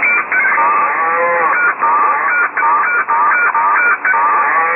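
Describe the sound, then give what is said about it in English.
Barnyard chickens squabble in a noisy tangle of overlapping clucks, squawks and cackles. The racket is loud and continuous, with many rapid calls and brief gaps between bursts, and no voices. “Sounds like a fight in the barnyard.”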